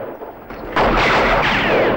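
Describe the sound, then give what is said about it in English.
Gunfire erupts in a western shootout at a cantina as men fire on riders who fall from their horses: after a quieter rumbling stretch, a loud, dense, continuous barrage of shots kicks in abruptly and holds steady to the end. “Vin and Chris begin firing and several of Calvera's men fall from their horses.”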